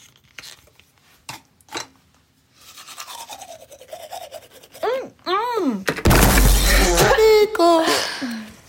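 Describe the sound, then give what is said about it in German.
Scrubbing strokes of a toothbrush on teeth with toothpaste during a prank, starting with scattered scratchy strokes and then giving way to loud, strained vocal noises and groans. “Also, das war der Zahnputzstreich und ich sage, da war irgendwas anderes in der Zahnpasta drin,”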